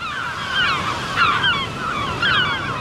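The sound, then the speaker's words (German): Seabird cries over breaking waves on the North Sea coast: three bursts of harsh, chattering calls rise above a steady, hissing wash of surf, and no voices are heard. “Schön, oder? Das ist der Sound der Nordsee.”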